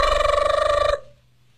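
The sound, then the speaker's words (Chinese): A telephone bell rings in one loud, rapidly trilling burst of close metallic strikes lasting about a second, then cuts off abruptly, leaving near silence. “电话铃响”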